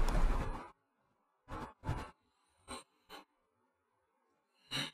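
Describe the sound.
A deliberate breath taken, heard as one broad rushing breath at the start, followed by a few short, soft mouth puffs with silence between them.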